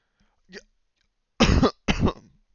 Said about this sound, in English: Sorry, there's something stuck in my throat.